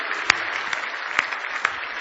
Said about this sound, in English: Give him another big hand clap of praise if you love him.